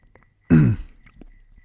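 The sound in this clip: A single throat clearing from a dry throat: one short, rough burst, loud and alone, followed by a faint low rumble of breath.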